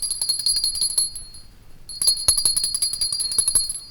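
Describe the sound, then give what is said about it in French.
A small hand bell shaken repeatedly in a stage-play scene, bright high jingling strokes in quick succession that quieten briefly midway, then ring again more strongly. “Ils n'entendent point et ma sonnette ne fait pas assez de bruit.”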